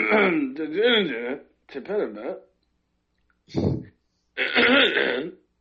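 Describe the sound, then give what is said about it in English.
Someone clearing their throat repeatedly: drawn-out, gravelly voiced rasps come in several bursts, then a short sharp hack, then another long rough clearing, loud and set apart by brief silences. “I had to clear my throat. I wasn't saying anything. I had to clear it.”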